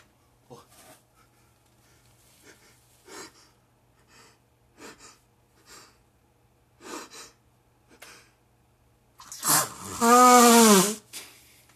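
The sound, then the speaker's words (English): A single loud, sharp sneeze bursts out near the end, a breathy intake followed by a forceful, tonal exhale. Only faint scattered breaths and small sounds come before it. “excuse me, I had a sneeze”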